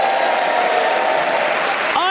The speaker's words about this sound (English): I hugely appreciate the cheers, but it feels ever so slightly patronising.